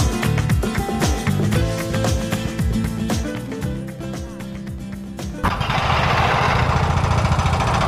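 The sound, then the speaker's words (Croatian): Heavy construction machines break up the remaining concrete walls of a demolished former sports hall in Doboj: rapid, loud, irregular pounding over an engine drone, shifting to a dense, harsh, continuous roar. “Radnici koriste teške građevinske mašine za razbijanje ostataka betonskih zidova i konstrukcije bivše sportske dvorane u Doboju.”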